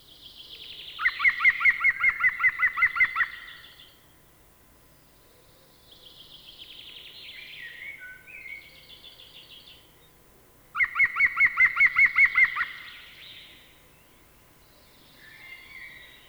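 European green woodpecker calling: two loud bursts of rapid, evenly spaced laughing notes, with softer, higher warbling bird sounds in the gaps between them.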